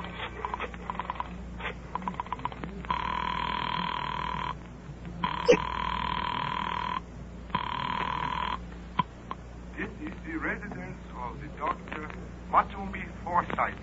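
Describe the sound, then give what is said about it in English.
A telephone rings after a number is dialed in a Gunsmoke radio drama. A few quick clicks come first, then three long ringing bursts, and voices talk afterward. “I dug through the telephone book and I found Dr. Matsonby Forsythe's number and I dialed it.”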